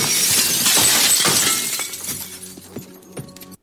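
Window glass shatters in one loud crash, then a spray of falling shards tinkles and fades, with a few brief clinks before it cuts off.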